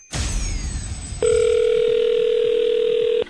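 A telephone tone on a call from a radio prize game, heard as a steady, loud, mid-pitched tone held for about two seconds. It follows a short, noisy rushing burst.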